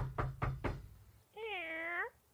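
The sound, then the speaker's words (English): A cat gives a single drawn-out meow with a gently wavering pitch, following three dull knocks in a quick even rhythm. “That's our cat.”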